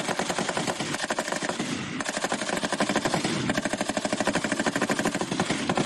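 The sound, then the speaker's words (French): Rapid automatic gunfire during a Senegalese army live-fire shooting exercise at Dodji. It is a loud, dense rattle of shots repeating in a fast, steady rhythm without a break. “La campagne de tir du premier semestre édition 2026 a vibré au rythme de la puissance de feu des forces armées sénégalaises.”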